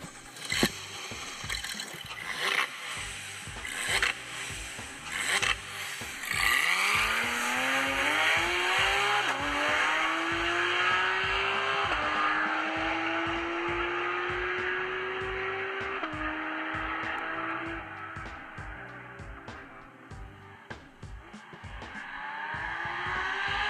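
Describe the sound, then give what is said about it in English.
A Porsche 911 GT3 RS engine starts up. After several seconds of clicks and background rumble, it catches with a sharp rising roar, then settles into a loud, steady idle whose pitch creeps slowly upward to the end. “But first, let's hear a nice solid Porsche startup.”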